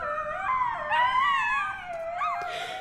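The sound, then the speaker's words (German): Coyotes howl in a city park, several wavering high-pitched howls with yips overlapping in a continuous chorus for about three seconds, with no talking. “die Kojoten laufen 3-4 Meter vor ihnen und sie merken es nicht. Und irgendwo im Schutz der Büsche verschwinden sie wieder, versteckt mitten im Trubel des Parks. Nur ab und an hört man sie.”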